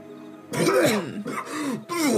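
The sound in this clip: A man's voice imitates a rough, wet coughing fit, as if he is spewing up water: several strained, groaning voiced bursts in quick succession, each with a rising and falling pitch.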